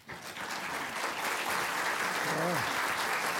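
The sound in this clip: An audience applauds to welcome a Lieutenant Governor to a talk on his new book. Dense clapping swells almost at once and holds steady for over three seconds, with a voice briefly heard above it.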